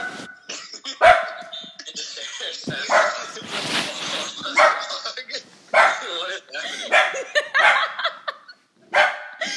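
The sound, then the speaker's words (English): A pet dog barking, with repeated sharp, loud barks in separate bursts and short pauses between them. “Sorry, my dog is barking.”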